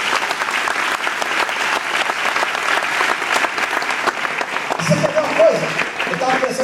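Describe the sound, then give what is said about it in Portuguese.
Church audience applauding, a loud, dense and steady clapping that fills the whole clip, with voices joining near the end. “Pode aplaudir ao Senhor por isso.”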